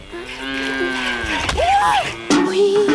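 A cow moos in a few loud, drawn-out lowing calls, one bending upward in pitch midway, running almost continuously with no talk.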